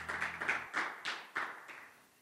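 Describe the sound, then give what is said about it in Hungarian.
A church audience claps for its volunteers. Several sharp claps come in a fairly regular rhythm, each with a short ring after it, and they grow quieter toward the end. “Úgyhogy adjunk egy nagy tapsot az önkénteseinknek, köszönjünk nekik.”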